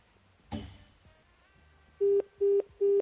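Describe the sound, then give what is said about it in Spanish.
Telephone line tones during a call: three short, evenly spaced steady beeps at a mid pitch that come in quick succession after a brief click, with no talk over them. “Al menos está claro que el teléfono suena.”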